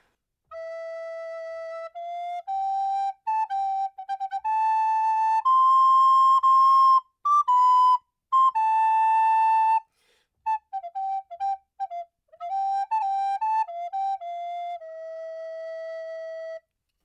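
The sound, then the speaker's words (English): A set of Renaissance diminutions played as a single bright, pure-toned melodic line, with quick ornamental runs around held notes, a brief break near the middle, then more rapid figures ending on a long sustained note. “and now hear another set of diminutions.”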